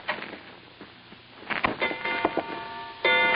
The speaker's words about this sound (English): I thought at first I'd set off a new polite kind of burglar alarm, but it was only a grandfather clock tolling out 10 p.m.